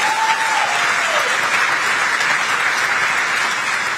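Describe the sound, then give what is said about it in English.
An audience clapping for a politician's line about immigration: sustained, dense applause from many hands that stays at an even, fairly loud level throughout. “Now he's just going to sit there and not move as they clap for him.”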